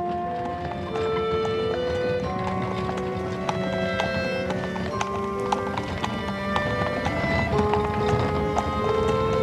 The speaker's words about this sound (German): Weiter und weiter rumpelte der Hansom, fuhr mit jedem Meter langsamer, wie ihm schien.